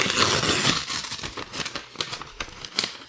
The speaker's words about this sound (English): I feel like there's some chicanery there because the envelope didn't seal, so I just ripped the top of it.